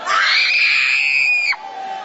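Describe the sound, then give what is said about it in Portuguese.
Shrill, loud shouting from an audience at a church service, a high sustained cry held for about a second and a half before dropping abruptly to a lower, quieter tone. “Grita, queima ele, Jesus. Deus está desfazendo. Deus está desfazendo. Vai gritando para Jesus queima ele.”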